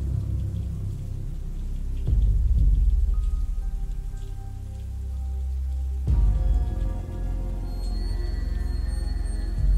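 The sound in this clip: Steady rain on a rainy, windy night, a dense hiss of drops with a low rumble and sustained tones beneath, the texture shifting abruptly twice as the layers change.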